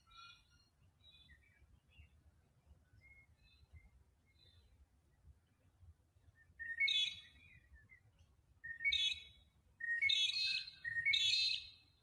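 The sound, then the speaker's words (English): Birds chirp in the morning: a few quick, high tweeting bursts in the second half, with fainter calls earlier, over a low, steady background rumble. “Nice to hear the birds in the morning chirping away.”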